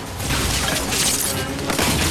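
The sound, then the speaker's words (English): Explosions and crashing impacts from a bombardment during a gun battle inside a factory, a loud, continuous roar with repeated bursts and shattering debris. “Luther continues his bombardment.”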